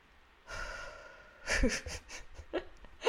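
A deep breath is drawn in slowly and softly, then followed by louder, rougher breathy bursts and a few short trailing breaths. No speech accompanies them.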